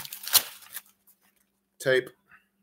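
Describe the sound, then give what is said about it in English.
Medical tape ripped off a roll in one short, rasping tear, followed after a pause by a brief spoken word. “Medical tape. Watch this with the medical tape. I love this.”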